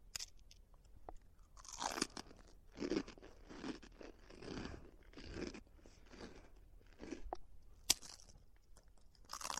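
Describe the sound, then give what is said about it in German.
Crunching and munching as a piece of a gummy-bear windowsill is broken off a candy house and eaten. Many irregular crunches and chewing sounds, with one sharp snap near the end. “Pass auf, ich breche ein Stück von der Gummibärchenfensterbank ab.”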